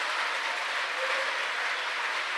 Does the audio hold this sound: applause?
yes